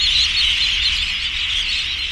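Sanderlings and dunlin feeding along the tide line on the Washington coast make a dense, continuous high chatter of many small overlapping calls over a steady low rumble.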